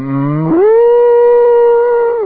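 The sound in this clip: A human voice imitates an upset cow mooing: one long, loud, drawn-out moo that steps up in pitch early, holds steady and then trails off at the end.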